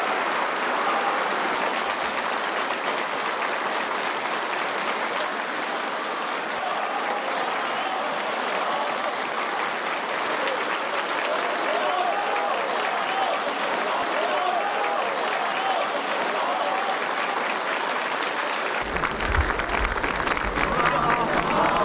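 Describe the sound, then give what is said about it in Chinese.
Warm, steady applause from a large crowd fills the North Hall of the Great Hall of the People, a sustained dense patter of clapping that keeps an even loudness for more than twenty seconds. “11时许，习近平等来到这里， 全场响起热烈掌声。”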